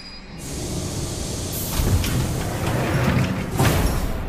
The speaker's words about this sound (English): The yellow underground train pulls up at a station and the doors open.